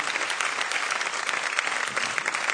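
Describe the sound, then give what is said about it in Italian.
Audience applause after a choir performance, a dense, even stretch of many hands clapping at moderate loudness, without any voices. “non pensavo proprio che l'ultimo applauso fosse per me.”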